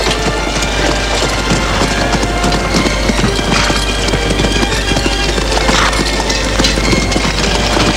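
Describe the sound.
Horse hooves clip-clopping as a mare enters a farmyard: a steady run of many hoof strikes in an even rhythm under a constant broad rumble of noise.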